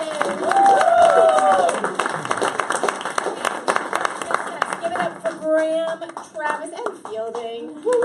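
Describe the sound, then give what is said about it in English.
Enthusiastic audience applause welcomes a speaker to the stage: loud, dense clapping with cheers and whistles, thinning out toward the end as scattered claps and voices remain. “Please give a huge warm welcome for Anna David!”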